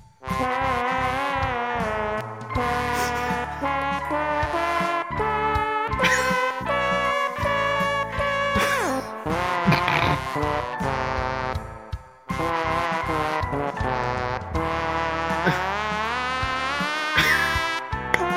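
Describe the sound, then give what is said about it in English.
Buzzy trombone music from the video game Trombone Champ, a melody of sliding, wavering notes over a backing track. It plays continuously and drops out briefly partway through before resuming. “It's a trombone hero, I think. It's Trombone Champ, my friends. Oh, Champ? Yeah, Trombone Champ. Oh, he ran out of air there.”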